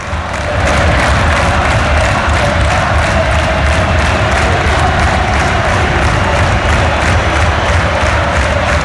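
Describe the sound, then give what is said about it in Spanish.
Football crowd at Riazor stadium roaring during a late stoppage in a match, a loud, unbroken wall of chanting and cheering that holds at full strength for about nine seconds. “Al público de Riazor le da igual. Escuchad. Esto es ahora mismo Riazor.”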